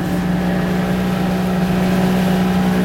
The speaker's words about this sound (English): As we motor out towards Huzzy Sound